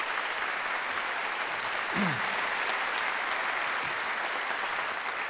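Steady applause from a church conference audience welcomes a bishop who is about to preach, a dense, even clapping that holds at a constant level throughout.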